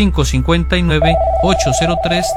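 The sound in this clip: A telephone rings with an incoming call, a steady continuous tone beginning about a second in and running under a person talking.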